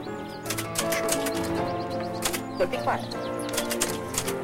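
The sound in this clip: Keys of a small typewriter clatter in rapid, uneven bursts as someone types in a garden while sitting on a swing bench, with birds calling and cooing around the typing.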